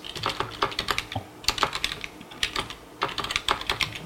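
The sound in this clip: Rapid keystrokes on a computer keyboard as a command is typed into PowerShell, coming in several quick bursts of clicky taps separated by short pauses.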